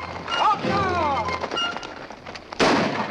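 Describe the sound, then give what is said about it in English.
Gunshots ring out as horse soldiers fire at three riders racing away: a few sharp cracks early on, then a loud, heavy blast near the end. “Several of the soldiers fire at three riders they see racing away up ahead.”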